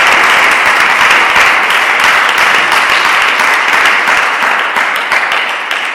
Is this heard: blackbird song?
no